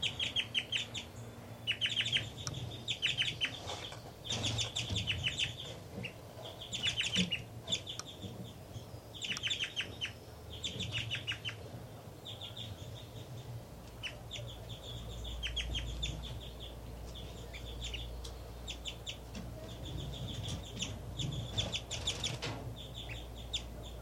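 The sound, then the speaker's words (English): A nesting bird gives repeated high, thin calls while feeding its chicks. The calls come in quick bursts, pausing between groups, over faint background noise and a low rumble later on. “3-3 is now feeding the babies. And she's giving a strange call while feeding.”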